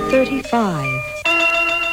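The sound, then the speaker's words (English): A radio time-announcement chime plays as a short run of bell-like electronic tones, one sliding lower in pitch, then settles on a sustained steady note. “At the chime, the time will be”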